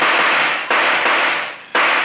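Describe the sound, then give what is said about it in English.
Gunshots from a handgun fired during a standoff, heard as a few harsh, noisy blasts whose bursts run into one another. Each new burst starts abruptly and the loud tails barely fade before the next. “Well, six shots. That means the gun's empty.”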